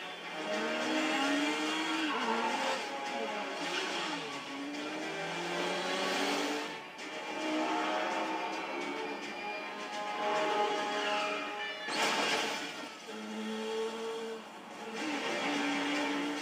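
Car engine and squealing tires during a driving stunt in an action film chase scene: a continuous roar with high, wavering tire screeches that rise and fade, interrupted by a couple of brief dips.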